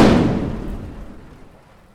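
A single gunshot from a drawn gun, a sharp loud blast at the very start that fades slowly over about two seconds into a long, dull tail, with no voices.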